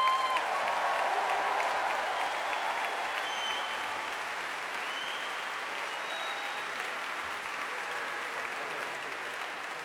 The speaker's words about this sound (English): let's give them a very, very warm welcome.